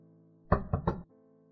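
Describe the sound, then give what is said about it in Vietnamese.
Knocking on a door: three quick, firm raps in close succession, standing out alone over a faint steady background tone. “Có tiếng gõ cửa”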